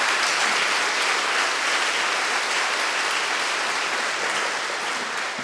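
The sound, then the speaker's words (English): A round of applause from a church audience, a loud, dense and unbroken wash of clapping that stays even from start to finish. “I'm wondering if we can give a round of applause”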